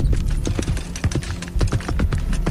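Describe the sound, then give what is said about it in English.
Hooves of Clydesdale horses galloping, a dense, rapid clip-clop of many heavy hoofbeats in a driving, uneven rhythm, loud throughout with no talking. “It's 15 seconds of Clydesdales galloping”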